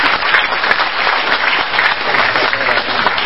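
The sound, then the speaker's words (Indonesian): A crowd applauds a singer just introduced on stage at an event, a dense, continuous burst of clapping that stays loud and even for a few seconds. “Tepuk tangan untuk Mas Jodha Jain.”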